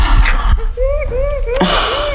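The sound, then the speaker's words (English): A person imitates a kingfisher call with a breathy intake, then a run of short, clear whistled notes, each arching up and down in pitch, repeated in quick succession. “Finish off with a kingfisher sound.”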